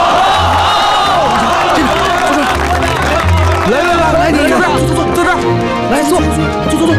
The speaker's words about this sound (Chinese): 同志们，丁医生来了，咱们热烈欢迎啊。